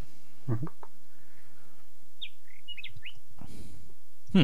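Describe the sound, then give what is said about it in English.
A chat's bird-chirp notification sounds as a few quick, high tweeting chirps, with someone talking briefly before and after. “I have sound on the chat, so I do hear birdies.”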